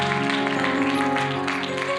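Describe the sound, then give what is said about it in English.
A church audience claps steadily for the praise team and musicians, and the dense applause blends with sustained instrumental music. “So they gave this kind of weak hand clap. I think we could do much better for our praise team and our and our musicians, the media department. Come on. Come on, make them feel welcome.”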